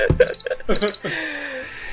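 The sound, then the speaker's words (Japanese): A kitchen timer rings during a quiz game, its thin tonal ring sounding under lively talking voices. “しかもキッチンタイマー持ってくんなよ。”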